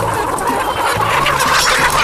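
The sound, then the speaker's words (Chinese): A fierce rooster clucks, giving several short, repeated clucks above a loud, steady, noisy background. “不，公鸡还是不要挑衅他了。对，公鸡太凶了，公鸡要咬人。”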